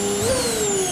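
A vacuum cleaner whirring as a radio jingle effect, a steady airy whine whose tone briefly lifts and then settles, lasting under a second.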